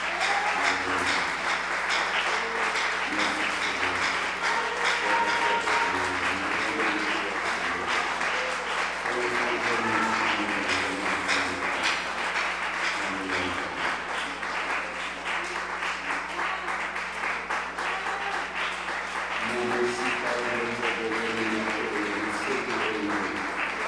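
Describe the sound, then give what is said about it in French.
A church audience applauds steadily and densely for the whole stretch, with voices rising through the clapping at times. “Est-ce qu'on peut acclamer le Seigneur encore une fois?”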